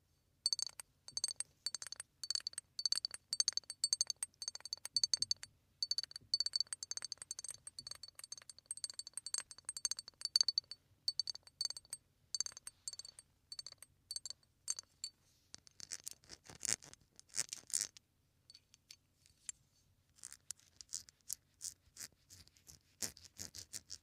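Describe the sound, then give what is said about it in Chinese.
An empty glass bottle is handled, giving many quiet, irregular clinks, taps and light scraping sounds of glass. The clattering runs throughout, sometimes in quick clusters and sometimes in sparse single touches, with no talking. “换了一个玻璃的空瓶子”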